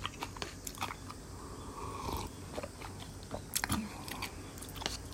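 Crunchy cashew-like nut topping being bitten and chewed while eating dan dan ramen, many crisp, irregular crunches and snaps of moderate loudness, heard alone without talk.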